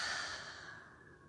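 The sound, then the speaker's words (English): A single deep exhale through the open mouth during a guided cleansing-breath exercise, a soft breathy whoosh that slowly fades away, quiet and alone. “invite a deep cleansing breath into the body, releasing any tension. Open the mouth, exhale, release.”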